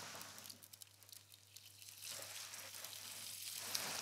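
Soft sizzle of bacon sweating in a pan for a quiche-like filling, a faint steady hiss scattered with small crackles.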